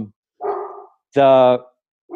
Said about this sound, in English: sorry, that's my dog barking at somebody